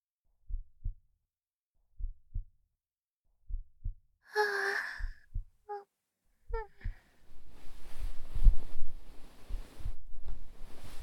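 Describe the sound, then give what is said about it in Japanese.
A slow heartbeat of soft, low double thumps repeats at a steady pace. Midway a brief breathy vocal sigh joins in, then a wash of breath noise that runs under the continuing beats. “あなたが脈打つ音。とっても心地よくて、大好きな音。”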